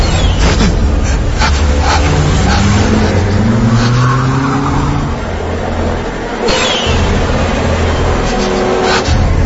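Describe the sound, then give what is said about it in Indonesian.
A car accelerates hard away from a bridge, its loud, continuous engine roar climbing in pitch over the first few seconds and holding strong, with a brief dip partway through before the roar resumes. “Tanpa pikir panjang, aku lalu tancap gas meninggalkan jembatan itu.”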